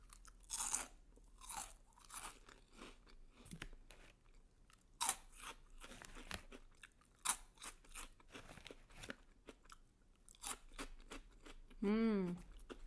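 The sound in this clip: Crisp crunching of vegetable-flavoured stick snacks being eaten, with many irregular sharp bites and chews. A brief voiced hum comes near the end.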